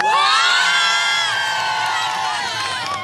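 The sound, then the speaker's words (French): Swiss pilgrims from Lausanne cheer while they wait for the Pope's arrival. A loud, sustained chorus of high whoops and shouting voices starts strong and eases slightly toward the end. “Les Suisses qui donnent de la voix, donc qui se sont levés très tôt pour venir de Lausanne ce matin.”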